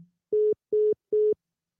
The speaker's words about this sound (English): The caller has hung up.